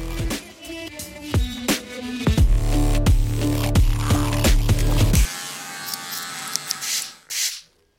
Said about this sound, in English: We're going to go to Hair by Michael, a hairdressing salon that I used to get my hair cut from way, way back in the day.